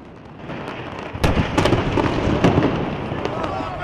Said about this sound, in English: A huge explosion lights up the city skyline at night.